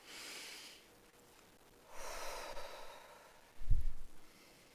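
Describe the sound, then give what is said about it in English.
Slow, deep breathing: a long, airy inhale, a pause, then a longer exhale, ending with a heavier puff of breath. “I invite you to breathe with me and to center yourself.”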